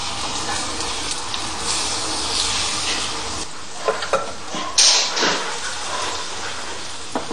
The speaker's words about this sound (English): Let it run around a bit to distribute the butter and oil evenly, yeah? Like that.